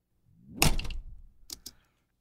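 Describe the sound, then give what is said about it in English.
A door with a zippy sliding sound: a sharp, bright swish leads into a heavier thud that trails off, followed by two quick, light clicks. “There was another door in place that had a cool kind of zippy sound to it. I'll play the whole door. Sounds like this.”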